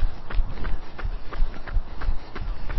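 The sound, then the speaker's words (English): Jogging footsteps around a park during a workout warm-up form a quick, steady rhythm of soft thuds that continues evenly throughout. “So as we continue our warm up, it's a nice little jog around the park.”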